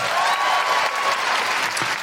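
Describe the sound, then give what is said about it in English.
A comedy audience gives a round of applause to a woman from the crowd. The clapping is dense and steady, holding at an even level throughout. “Big round of applause for May.”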